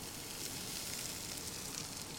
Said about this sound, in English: chef sautés that in the pan as things start to really heat up